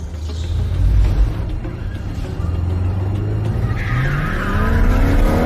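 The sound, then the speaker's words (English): A big coupe drifting on a slick garage floor, its tires screeching over a roaring engine, with the engine note and squeal climbing in pitch and growing louder toward the end. “He drifts the big coupe on the slick garage floor, leaving black tire tracks.”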